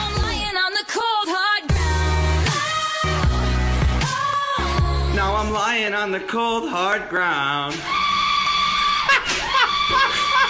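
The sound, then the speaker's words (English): An automatic paper towel dispenser mixed with a shouted vocal from a pop song, loud throughout, with many strained tonal cries over backing music. “some guys were using an automatic paper towel dispenser and thought it sounded like that part, so we mixed them together.”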